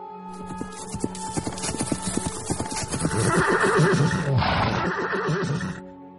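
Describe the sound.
Horses neigh and hooves clop as two riders arrive across desert sand: steady, evenly paced hoofbeats build, then a loud, rough whinny rises over the continuing hooves before fading out, with no talk.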